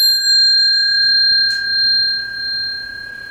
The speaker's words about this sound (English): Now, hear the bell. Don't call it a bell. But just hear sound.